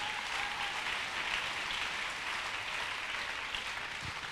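Congregation applauding and cheering at a church service, a dense steady wash of clapping filling the whole short stretch, fairly faint and even in level.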